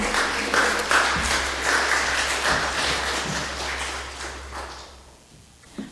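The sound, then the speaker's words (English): An audience applauds to welcome two speakers, with many hands clapping in a dense, steady patter that gradually tapers off and thins out near the end. “So we welcome y'all, and please give them a hand as they come to share with us.”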